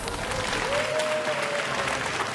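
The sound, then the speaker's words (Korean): An audience breaks into applause on cue. Dense, even clapping runs throughout, and a faint sustained whistle-like tone sounds through the middle. “박수!”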